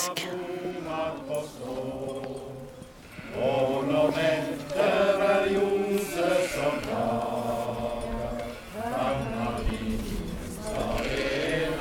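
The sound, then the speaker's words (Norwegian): Sheep bleating in Nesflaten: many overlapping, wavering bleats keep going steadily across the whole stretch at a fairly even loudness. “Nei, det er bedre på nes, for der er det sauene som breker, og så noen sauebjeller som klinger, og det det er mye kjekkere, faktisk.”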